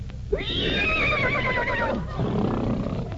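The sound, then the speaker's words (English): A horse whinnies in one long, high, wavering neigh with a sharp onset. It lasts about a second and a half before cutting off, over a steady low rumble. “What are you talking about? That's a horse.”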